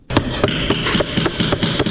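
Hammer striking tile in a tile-making workshop in Herat: a steady series of sharp, bright taps about every quarter second over a constant background.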